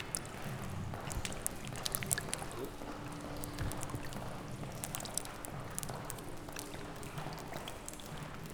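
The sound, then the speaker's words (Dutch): Water from a massive leak drips and splashes across the floor of a large hall, with many irregular sharp drips over a steady wet hiss. “Dit is het geluid van de massale lekkage.”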